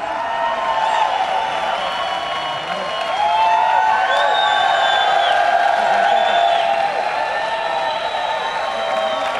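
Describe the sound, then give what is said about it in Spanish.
A crowd ovation at a shop inauguration: sustained cheering and applause with whoops that holds steady for the whole clip and swells slightly partway through. “tras esta gran ovación”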